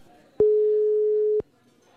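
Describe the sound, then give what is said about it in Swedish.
Ringback tone of an outgoing telephone call: a single steady, pure mid-pitched tone lasting about one second, clear and alone against near silence. “vi testar också att ringa Sami Haikala”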